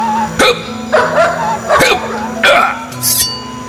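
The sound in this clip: A dog barks near a fence gate, giving several sharp, loud barks in an uneven rhythm with short gaps between them. A faint, higher yip comes near the end.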